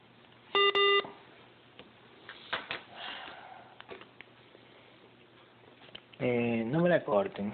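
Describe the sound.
Two loud electronic telephone beeps sound back to back right after a call is cut off. Faint voices and small noises follow on a narrow, phone-like line, with a burst of talk near the end.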